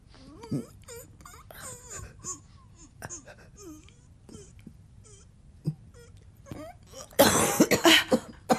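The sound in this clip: Someone who has just choked breaks into a coughing fit, with many harsh, uneven coughs amid talking voices, ending in a louder, rasping spell.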